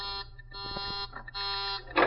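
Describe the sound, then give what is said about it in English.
A warning buzzer sounds in a hallway by a door to signal that someone is coming out. It gives a steady, harmonic electronic tone in a few long blasts separated by brief breaks. “That's the warning buzzer. It means that someone's coming out.”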